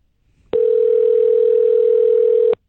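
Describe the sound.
Telephone dial tone heard while a call is being placed: one steady, unbroken mid-pitched tone that starts abruptly, holds for about two seconds and cuts off cleanly, alone with no voices.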